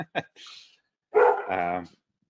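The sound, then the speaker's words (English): A dog barking: a few short, sharp yelps followed by one longer, louder, mid-pitched bark, with brief voice sounds nearby. “Sorry about that. That's my dog.”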